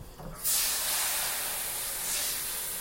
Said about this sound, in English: That's one hot pan. Please don't burn me.